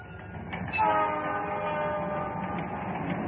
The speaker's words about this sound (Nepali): एउटा शहरमा रेल अत्यन्त तीव्र रूपले कुदिरहेको छ।